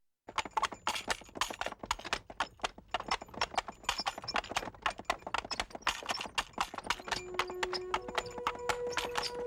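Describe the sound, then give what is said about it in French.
Horse hooves clip-clop as a horse-drawn carriage moves along: many sharp, even hoof strikes in a quick, steady rhythm, loud and continuous throughout, with no talk. “Allez, je vous emmène monter dans ma calèche.”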